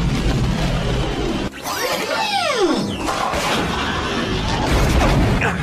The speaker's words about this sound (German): Ein Torpedo hat uns getroffen. Noch einer.